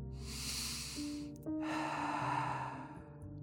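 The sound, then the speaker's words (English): Breathy, snorting sniffs as someone sniffs at a man's face and neck after gripping him tight, forming two long noisy stretches with no talk. “and begins to sniff his face and neck, then throws him back to the ground.”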